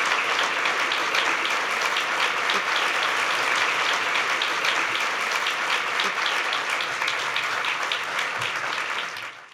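An audience applauds panelists at a free-expression event, with steady, dense clapping that holds evenly for several seconds before tapering off at the end.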